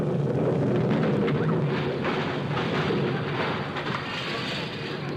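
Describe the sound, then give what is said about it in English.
A time bomb explodes as a dense, rumbling roar that fills the whole stretch at a steady, heavy loudness and eases off only slightly toward the end. “There goes that time bomb. I must have said it a little too early.”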